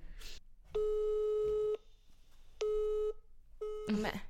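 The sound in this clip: A telephone busy signal sounds during a phone call as three steady, pure electronic tones: the first lasts about a second and the next two are shorter. Faint low background noise fills the gaps between them.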